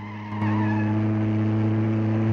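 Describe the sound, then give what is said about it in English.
A car engine drones as the car swerves through a narrow gap beside a wall and races ahead. A brief onset gives way to a steady, loud hum with strong layered harmonics. “Francis swerves to fit through a narrow gap between it and the wall. Then it races towards the police car.”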